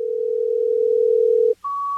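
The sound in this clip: A telephone line tone sounds while calling a radio station DJ: a steady low hum holds for about a second and a half, cuts out briefly, then gives way to a higher steady tone.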